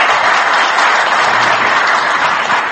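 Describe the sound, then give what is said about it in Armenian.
A standing ovation follows the election of a new mayor at a city council vote, a dense, loud wall of clapping from many people that holds steady throughout without talk. “Դե իսկ հոտնկայս ծափահարություններից հետո”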